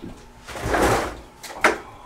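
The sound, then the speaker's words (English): A window being opened: a brief sliding rush swells and fades, then a couple of sharp knocks follow as the frame settles. “You have to tell us a story while I open the window.”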